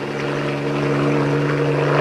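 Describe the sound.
Helicopter lifting off, heard as a loud, steady engine and rotor drone that grows slightly louder, with no voices.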